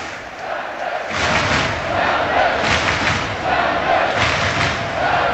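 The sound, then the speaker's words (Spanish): Seattle soccer fans roar at Lumen Field before a Major League Soccer match, just ahead of the national anthem: a loud, sustained crowd din with swelling chants that never lets up. “Pero escuche usted la maravilla de ambiente que tenemos en el Lumen Field. A los aficionados.”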